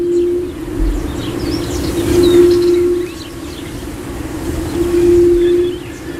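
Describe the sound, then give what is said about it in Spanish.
A female Andalusian hemipode gives soft, low, drawn-out hoots, a few steady moaning tones repeated with pauses between them. Faint chirps of other birds sound above. “Y ese sonido muy suave, pero que se escucha así como en lejanía, y sin embargo tienes a la hembra cantando al lado, o sea, es muy muy curioso, y por eso se le llama torillo a este ave. Vamos a escucharlo.”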